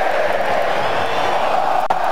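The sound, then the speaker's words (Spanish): A stadium crowd roars steadily in the closing minutes of a Colombia football match in Vancouver, with Colombia leading 1-0. The loud sustained noise carries a few whoops and shouts. “Escucha el público.”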